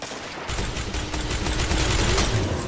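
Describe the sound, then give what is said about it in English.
Grenade launcher fire and other weapon fire in a Destiny 2 multiplayer match form a dense, loud barrage of rapid cracking bursts that start abruptly after a quiet moment and keep going steadily to the end. “this grenade launcher is annoying”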